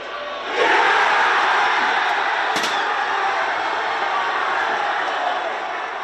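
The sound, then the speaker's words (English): England fans react to Harry Kane's penalty with a crowd roar that bursts out after a brief quiet moment, then holds as a loud, sustained wall of cheering that eases only slightly toward the end. “And I'm sure that you're more than happy to hear their reaction to Harry Kane's penalty as well.”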